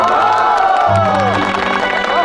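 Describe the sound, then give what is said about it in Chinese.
A crowd cheers and claps to welcome a cavalry regiment's medical team onto a stage to collect awards after a basketball match. Voices shout and whoop over a steady bed of clapping. “大家用热烈的掌声欢迎这个卫生队上台领奖。”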